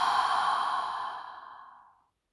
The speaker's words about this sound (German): Atme tief mit der Nase ein und mit dem Mund aus.